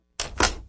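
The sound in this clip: A door lock clicking shut makes two quick, solid clunks close together, followed by a fainter click.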